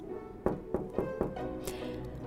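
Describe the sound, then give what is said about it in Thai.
Soft fingertip taps on a window, four quick, evenly spaced knocks, quiet and close together, in a fairy-tale reading of a girl knocking at the executioner's lodging. “นี่คือที่พักของเพชฌฆาตคาเรนรู้ดี คาเรนเอานิ้วเคาะที่หน้าต่าง แล้วก็ร้องเรียก”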